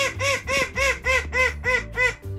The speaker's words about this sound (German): Unser letzter großer Star ist eine süße kleine Zwergente.